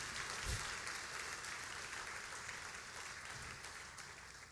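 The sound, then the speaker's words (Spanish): Applause from a church audience during a bilingual worship service, steady and dense across the whole stretch with no voices over it. “Actúa, vamos, dale un aplauso al Señor. He acts upon it. Put your hands together for the Lord.”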